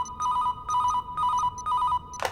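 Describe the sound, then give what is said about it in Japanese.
An electronic telephone ringtone for an incoming call sounds four times in evenly spaced, warbling bursts, followed by a short clatter at the end. “あなたに政府の人から電話が入ってるみたい。”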